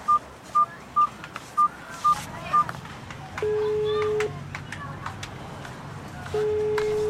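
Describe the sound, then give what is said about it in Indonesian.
Telephone keypad dialing: six short, evenly spaced tone beeps in a quick steady rhythm, followed by two longer sustained tones with a pause between them, and soft voices underneath. “Ya sudah, tolong dipencet ini nomornya.”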